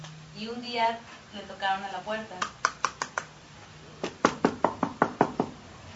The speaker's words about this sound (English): And one day there was a knock on the door.